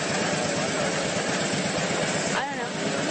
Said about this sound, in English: is it an emergency why you can park a motorized vehicle on the sidewalk?